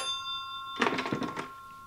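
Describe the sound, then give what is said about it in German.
A telephone rings in a London police station in 1949, with steady bell-like tones throughout and a brief, busier, louder burst partway through. “An diesem Tag läutete in einem Londoner Polizeirevier das Telefon.”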